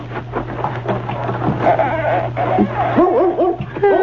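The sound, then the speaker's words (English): A dog whimpers and yips in a woodshed: a few short, whining, arching yelps come in the last second, over a low steady hum that stops just before them. “Hey, that's a dog back here in the woodshed.”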